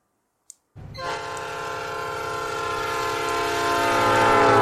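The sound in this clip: A local train's horn sounds as a sustained, harmonically rich blare over a low rumble on the last local train from Sarampur, growing steadily louder to the end after a brief click.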